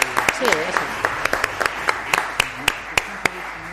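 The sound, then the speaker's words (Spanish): Audience applause at the end of a town council plenary session: individual sharp claps stand out from a steady wash of clapping, with voices talking over it. “Este aplauso es para vosotros y gracias por la participación.”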